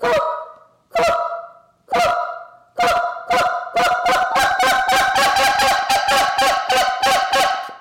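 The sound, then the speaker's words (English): Goose honks from a Jargon goose call imitating geese, blown by a goose calling champion. Four evenly spaced honks come first, then the calls quicken into a loud, rapid run of many sharp honks, with no talk. “that's the thing with the Jargon calls. I mean, they sound so natural. They sound so much like geese.”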